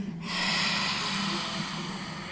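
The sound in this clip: A forceful lion's breath exhale during a yoga session gives a single long, breathy rush of air that holds steady and strong, heard alone.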